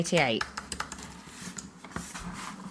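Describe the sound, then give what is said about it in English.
Keys tapped on a laptop keyboard to unlock it: a quick, irregular run of light clicks follows a brief voice at the start, with a few scattered taps continuing afterwards. “Who are you typing to? I was unlocking my laptop.”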